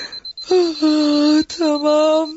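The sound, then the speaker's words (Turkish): An alarm clock ringing at home in the morning, a steady high-pitched tone running throughout while a voice makes two drawn-out vocal sounds over it. “Ay, hay Allah, çalar saatmiş.”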